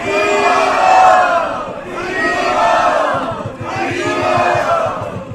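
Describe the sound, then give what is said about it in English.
A crowd loudly chants "Hari Bol" three times in thanks, three long, swelling group shouts following one after another with short dips between them. “please let us thank him by chanting very, very loudly, three Hari Bol.”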